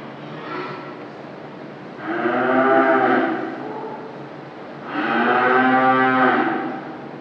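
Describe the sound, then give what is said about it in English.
Cattle mooing in a byre on a farm: two long, loud, drawn-out moos rise above a steady low background, with fainter lowing just before them. “the ambient sounds of a farm.”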